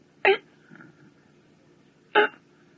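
A baby gasps for breath while crying: two short, sharp, breathy bursts about two seconds apart, with near silence in between.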